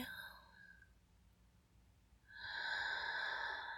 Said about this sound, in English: Exhale. Inhale. Exhale.